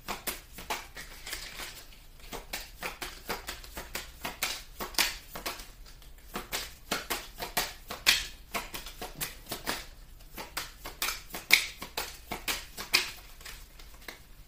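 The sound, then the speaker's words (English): Playing cards being handled in a bunch: many crisp flicks and light taps in an irregular, busy patter, with no voices. “This does not want to go back in, but it's like a bunch of cards. May I have just one more card, please?”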